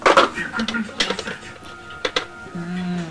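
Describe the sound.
A metal cooking pot meant for cooking fish is set on a stove, giving a few clanking knocks amid other metallic handling sounds while people talk.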